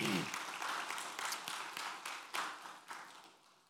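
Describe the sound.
A church audience applauds to welcome a first-time visitor: faint, steady clapping from many hands, with scattered sharper claps standing out against the even wash.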